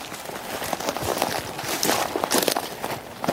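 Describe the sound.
Footsteps walk further down into a gravel pit as a steady series of firm steps that grows slightly louder toward the end, with no voices.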